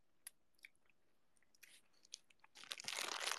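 Crunching from someone eating a macaroni snack: a few sparse, crisp bites and crackles at first, then dense, louder continuous crunching and chewing toward the end, with no talk.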